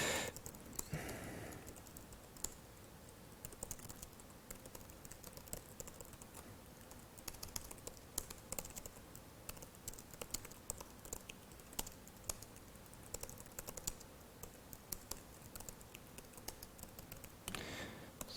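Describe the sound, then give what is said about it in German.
Faint, steady typing on a computer keyboard while writing code, many light key clicks pattering on without pause for a long stretch. “Also ich habe jetzt ein bisschen an Code geschrieben, habe F5 gedrückt und zuerst mit F9 einen Breakpoint gesetzt.”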